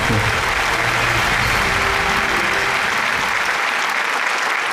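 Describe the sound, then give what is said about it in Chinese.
An audience claps warmly to welcome a professor onto the stage. The applause is loud, dense and steady from start to finish, with no voices over it, and a faint low hum early on fades out. “好，让我们用热烈的掌声，有请张永乐教授。”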